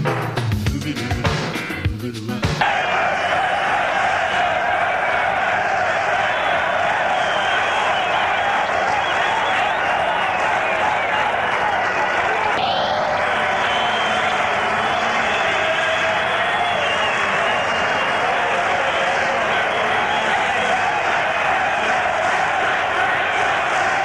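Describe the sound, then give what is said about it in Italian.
A football crowd fills the stands of Bologna's Renato Dall'Ara stadium as the teams are about to enter the pitch. After a brief different burst at the start, a dense, steady roar holds for the whole length. “stanno mancando veramente pochi secondi all'ingresso delle squadre in campo, sentiamo come ha reagito il pubblico sulle tribune.”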